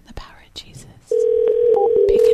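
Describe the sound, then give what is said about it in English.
Outgoing phone call ringing: a steady, mid-pitched ringback tone sounds continuously for over a second while the caller waits for an answer, after a moment of quiet, soft voice and small clicks. “This one's not going to pick up. Pick up the phone.”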